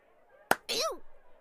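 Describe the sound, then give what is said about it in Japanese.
One sharp slap lands on the face of a toilet-girl character in a role-play. It is a short, loud crack, followed at once by a brief voiced cry. “便器少女かなでちゃんは、レバー引かないとうんこ流せないでしょ。このバカ顔を引っ叩いたら流れまーしゅ。”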